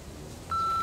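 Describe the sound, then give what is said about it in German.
An answering machine beeps before a message, a single steady electronic tone that starts abruptly halfway through and holds loud and level to the end over faint low background noise. “Der Anrufbeantworter.”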